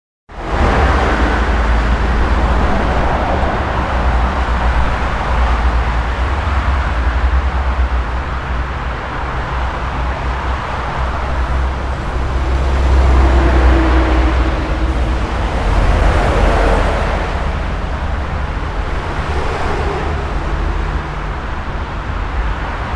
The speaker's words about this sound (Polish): Dla porównania ponownie ruch uliczny przy braku ekranów akustycznych.